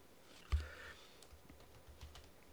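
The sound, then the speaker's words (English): Typing on a computer keyboard while searching online for the French rugby team: a few soft, scattered keystrokes, faint throughout, with one duller thump near the start. “Like, just type in French rugby team.”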